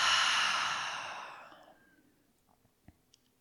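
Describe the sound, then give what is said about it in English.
A deep, full exhale through the open mouth, loud and airy at first, then tapering off over nearly two seconds into near silence with a few faint soft clicks of breath. “So deep, full breath in through the nose. Open the mouth, exhale it out.”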